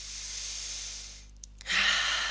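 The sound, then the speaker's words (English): A deep breath in during the closing of a guided partner session. A soft, airy rush of air fades, then after a brief pause with small clicks, a louder hissing breath follows. “taking a nice deep breath in, bringing it all to an ending.”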